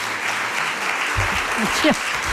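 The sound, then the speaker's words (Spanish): Audience applause, a steady dense patter of many hands clapping that runs throughout, with brief voice-like sounds rising near the end. “cuando noto que empieza a aplaudir el público”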